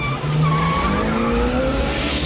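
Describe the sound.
Tires squeal as a car speeds off, a loud, continuous skidding screech layered over engine roar that holds for about two seconds with shifting, wavering tones.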